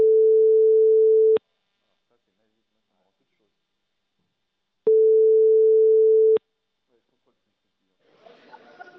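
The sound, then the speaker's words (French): Telephone ringing tones sound while a call is placed: two steady, pure, mid-pitched beeps of about a second and a half each, separated by a long silence. “Donc, je compose.”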